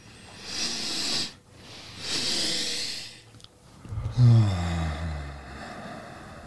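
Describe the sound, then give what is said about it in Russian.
A breathing exercise: two soft, airy intakes through the nose, then a longer, slower exhale through the mouth carrying a low voiced hum. All of it is quiet. “предлагаю сделать двойной вдох носом и медленный расслабляющий выдох ртом”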